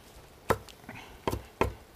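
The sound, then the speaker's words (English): A knife rough-chops fresh basil with four sharp, loud chops at irregular intervals and a fainter tap between the first two. “I'm just going to chop a little bit, rough chop here.”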